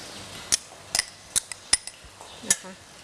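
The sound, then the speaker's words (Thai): A spoon clinks against a pot while stirring pounded paste into soup to dissolve it, giving several sharp, bright taps at irregular intervals over a faint, steady background. “คนให้ละลายนิดนึงคนให้ส่วนผสมจะได้ไม่เป็นก้อนนะคะ”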